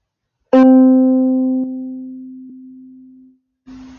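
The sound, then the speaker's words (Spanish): A low-pitched tone, used as the deep reference sound in a children's listening game, starts with a bright, buzzy attack. It settles into a steady, pure low hum lasting about three seconds, and a brief second burst of the same tone follows. “os voy a presentar al sonido grave, que suena así.”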